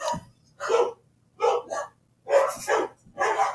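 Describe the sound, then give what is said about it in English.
Dogs bark in the background, several sharp barks arriving in short bursts and quick pairs separated by brief silences, fairly loud and with no voices over them. “And so getting some dogs in the background there.”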